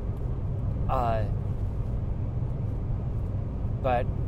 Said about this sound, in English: I probably won't even look at them because I'm driving.